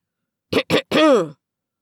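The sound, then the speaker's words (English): Loud throat clearing: two short, harsh rasping bursts are followed by a longer, voiced, gravelly rumble whose pitch bends. The whole sound is brief and close. “They didn't break apart until Stella cleared her throat loudly.”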